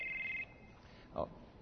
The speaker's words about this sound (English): I meant to leave this back in the office. I got a phone call here. I don't recognize the number.